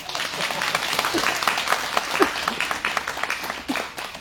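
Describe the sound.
Dense, continuous applause from a gathering at a Buddhist sutra recitation in Conroe: many overlapping hand claps that form a steady, fairly loud patter from start to end.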